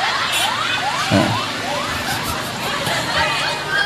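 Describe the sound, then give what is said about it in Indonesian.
An ambulance siren goes by, its wail sweeping upward again and again in a steady repeating pattern over a low rumble of traffic. “lek iki ambulan iki sing liwat iki”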